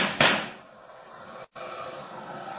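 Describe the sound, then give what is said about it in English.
A single sharp gunshot fired by a police officer in a dramatized scene: a loud crack that decays into a long noisy hiss, broken by a brief cut to silence. “Nice shooting, officer. One of those bullets bounced off my chest.”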